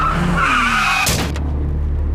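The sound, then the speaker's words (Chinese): A car skids at speed with squealing tires, then a sharp, loud impact of a crash, after which a steady low engine rumble continues. “你开那么快，你看给我撞成什么样子了都？”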